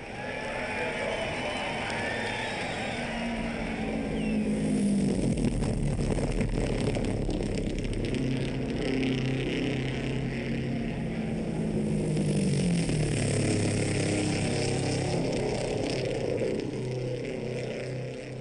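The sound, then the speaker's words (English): Race cars at the famous 500-mile speedway race: a sustained engine drone with sweeping, whining tones as cars pass, loud and continuous throughout. “And in the next moment, we're trackside at the famous 500-mile speedway race.”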